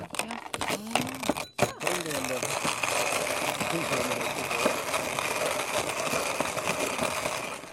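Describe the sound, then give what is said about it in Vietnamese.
Coffee beans are ground in a hand coffee mill: a steady, gritty, crunching rasp that runs without a break after a short burst of speech at the start. “Phóng viên của đài đã chọn máy xay tay handmill để trực tiếp xay thử hạt cà phê.”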